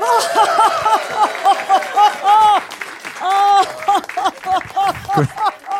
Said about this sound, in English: Please put your hands together and welcome Dr. Yang to the stage